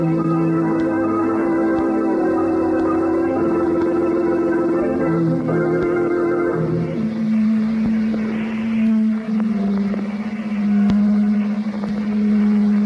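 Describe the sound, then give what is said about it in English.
A motor runs with a steady, loud droning hum that holds evenly, then shifts to a lower-pitched drone about halfway through and keeps going without a break. “Do you mind turning off that motor?”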